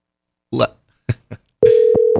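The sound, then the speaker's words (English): A telephone ringback tone on an outgoing call: a steady mid-pitched tone begins after a few short voice bursts and continues to the end, briefly interrupted by a couple of clicks. “Oh, it's ringing. Look at that.”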